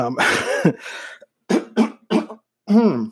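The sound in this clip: Someone coughs and clears their throat in a run of harsh, rasping bursts: one long rough spell, then several short separate coughs with brief pauses between them.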